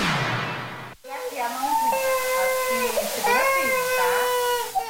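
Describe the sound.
An infant under a year old crying after a flu vaccination: after a short burst of noise and a sharp break, a continuous high, wavering wail rises and falls in pitch in strained bursts.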